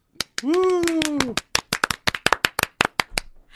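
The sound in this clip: A voice holds a drawn-out vocal call, then hands clap for guests in a studio. The run of many sharp, separate claps is uneven and quick, sounding like a small group rather than a crowd.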